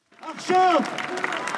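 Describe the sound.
Crowd shouting at a weekend rally in Tel Aviv calling on the Israeli government to bring home hostages held in Gaza, a loud, steady mass of raised voices with strained tonal cries swelling early and then holding.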